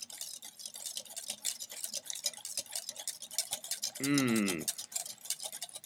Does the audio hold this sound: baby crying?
no